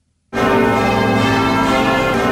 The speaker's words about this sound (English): Then the bells started to ring.